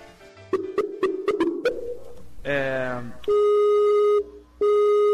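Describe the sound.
Skype call ringing tone: a few short clicks and a brief chime-like burst, then two long, steady, loud tones with a short gap between them.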